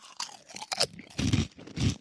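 Peanuts being crunched and chewed: a few loud, crisp crunching bursts in an uneven rhythm, with softer mouth and chewing sounds between them.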